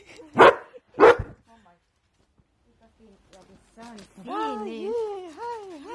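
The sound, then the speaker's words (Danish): A dog barking for attention, two sharp, loud barks close together, followed after a pause by a person talking in a high, sing-song voice. “Oj, han skal godt nok lige gøre opmærksom på sig selv, ham hundemand der.”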